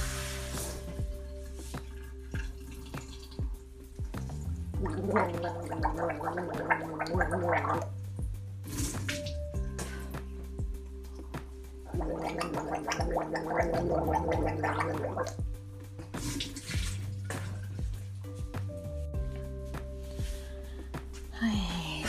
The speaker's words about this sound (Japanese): しっかり手を洗ってうがいをしたいと思います